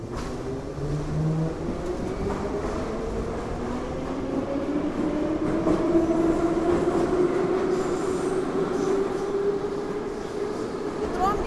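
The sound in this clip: A metro train running, with a continuous loud rumble and high wheel-squeal tones that slowly climb in pitch.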